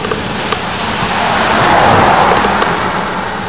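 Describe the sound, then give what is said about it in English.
A car driving past gives a broad rushing road noise. It swells steadily to a peak in the middle, then eases off slightly, with no voices over it. “let me just let the car go by again.”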